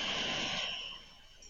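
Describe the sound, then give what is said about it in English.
A single breath in during a guided breathing exercise: a soft, airy rush that fades over about a second and a half, with no talking. “We'll do a couple rounds. Just inhale.”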